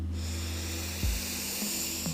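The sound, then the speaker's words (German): A deep breath drawn in through the nose during a guided breathing exercise, heard as a steady, airy hiss lasting about two seconds over a low hum. “Tief einatmen durch die Nase,”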